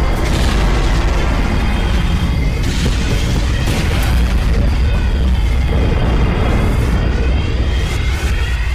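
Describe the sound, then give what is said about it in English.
A sci-fi spaceship's jump drive engaging as a star is about to go supernova: a loud, sustained roaring rumble with deep booming bursts that fill the whole clip without a break, with no talk. “We have no choice. The star is about to go supernova. Lieutenant Blastic, do it! Engaging the jump drive.”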